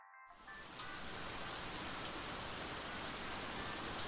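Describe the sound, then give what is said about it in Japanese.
Rain starts to fall, a dense hiss of drops that cuts in abruptly after a brief silence and then carries on steady and even. “やっぱり雨降ってきちゃった。雲行き怪しかったもんね。”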